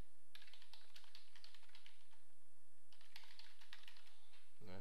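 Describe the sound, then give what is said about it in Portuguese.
Rapid typing on a computer keyboard: many crisp keystrokes in quick, uneven bursts, with a short pause near the middle before the clatter resumes. “Então, eu vou digitar aqui.”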